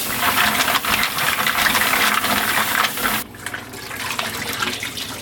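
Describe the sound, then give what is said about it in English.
Mussels are rinsed and swirled in a bowl of water: loud, steady rushing water cuts off abruptly after about three seconds, and a softer wash continues. “So I'm going to give them a quick rinse, agitate them in the bowl.”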